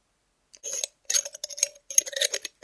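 A glass bottle of schnapps is handled, giving several short bursts of clinking and rattling glass separated by brief silences. There is no talking.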